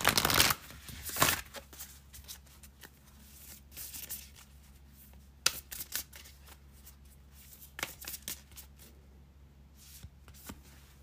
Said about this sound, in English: And last but not least, for Aquarius, let's pull three cards for you to see what's going on.